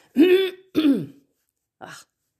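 Throat clearing to bring up phlegm: two strong, rasping bursts close together, then a shorter, softer third after a pause, heard alone.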